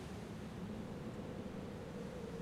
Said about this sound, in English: The chill sound of the wind rushes around you.